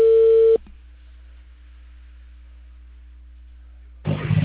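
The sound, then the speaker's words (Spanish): A telephone line tone sounds while someone calls a technician. A steady tone plays for about half a second and then cuts off, leaving a faint low hum, before a burst of noise at the end. “Voy a llamar. Tal vez el técnico va a tener que ir.”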